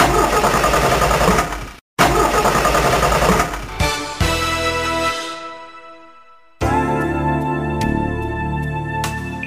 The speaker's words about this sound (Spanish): Caballero, ¿se le para de repente? ¿Se le derrama el líquido? Esto es señal de que su coche necesita bujías Prestolita.